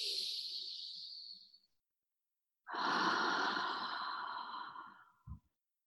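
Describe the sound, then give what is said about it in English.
Deep breathing during a guided meditation: a long airy breath, a pause of silence, then a longer, fuller inhale, ending with a short soft thump. “I invite in all those that are ready. Deep breath in.”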